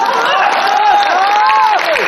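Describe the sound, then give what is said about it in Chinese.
Audience applause at a live traditional Chinese comic performance, steady moderate clapping with a few voices and cheers mixed in, thin and not very lively, continuing for about two seconds. “咱这鼓掌不太热烈。”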